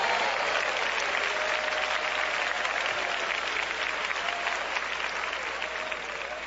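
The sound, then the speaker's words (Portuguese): A church audience claps hands in worship, a steady, dense wash of applause that holds at an even level throughout. “Podem dar glória a Deus, podem bater palmas para Jesus.”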